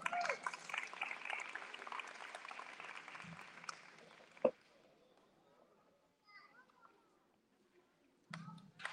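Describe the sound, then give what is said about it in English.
Audience applause at a kindergarten graduation ceremony: dense, steady clapping for about four seconds, then fading to near silence with only a few faint sounds and a brief burst of noise at the end. “Let's give her a hand.”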